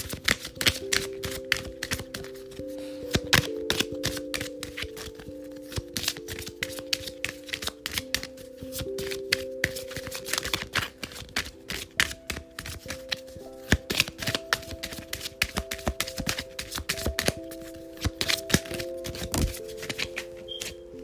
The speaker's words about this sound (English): So let's go ahead and get some angel cards right now.